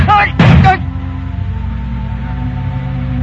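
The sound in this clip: A single loud gunshot bursts out in a radio drama, cutting across a brief voice, and then rings down into a long, low, fading tail.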